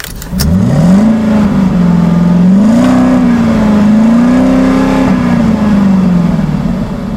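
A car engine revs up as a ride starts. Its pitch climbs sharply, then holds with gentle swells and dips, loud and steady throughout with no voices.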